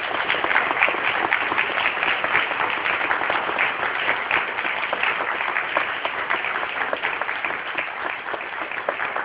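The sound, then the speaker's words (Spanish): An audience at an international ufology congress in Argentina applauds an invited speaker, a dense, continuous clapping that holds steady and fairly loud throughout. “Un fuerte aplauso, sí, por favor.”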